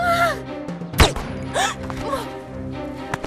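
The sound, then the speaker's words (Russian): A pistol fired through a silencer: one sharp, muffled pop stands out against a sustained, tonal background with faint vocal sounds around it. “Роберт достает из букета пистолет с глушителем. Стреляет в Германа.”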